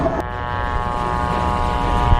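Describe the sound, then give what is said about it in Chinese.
Target drone aircraft taking off, its propeller engine giving a continuous loud buzzing drone with a steady tone and no breaks. “靶机已经起飞”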